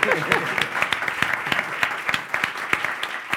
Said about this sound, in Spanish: Y le podemos dar un aplauso por ser el nuevo director de Recursos Humanos de LG.